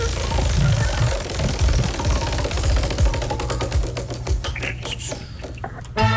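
A game-show prize wheel spins with a rapid run of clicks that gradually spread out and slow toward the end, over a low steady background hum.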